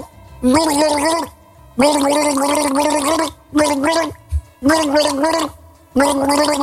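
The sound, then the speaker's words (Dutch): A person gargles a song tune, the gurgling voice carrying a pitched melody in about five loud bursts separated by short pauses, with no other voices. “want er werd gegorgeld en jij hebt meteen in de gaten gehad welke plaat het was”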